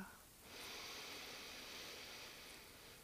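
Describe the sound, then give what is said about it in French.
A soft, steady breath drawn in through the nose during a guided breathing exercise, a long airy hiss that swells after a brief pause and holds for about two and a half seconds. “Encore une autre fois, on inspire.”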